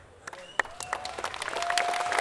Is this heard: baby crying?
no